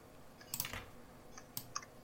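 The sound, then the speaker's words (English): Soft keyboard typing: a few faint, irregular keystroke clicks over a quiet background, with no voices. “I'm typing Andrew Harris each time.”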